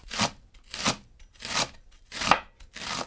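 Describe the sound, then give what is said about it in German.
Five crisp, evenly spaced chops as a freshly sharpened knife cuts leek into medium pieces on a board, each a short crunchy slice followed by a pause. “Das Messer ist frisch geschliffen, das ist übrigens das Wichtigste, ein scharfes Messer. Und dann schneiden wir den Porree mal so in mittelgroße Stücke.”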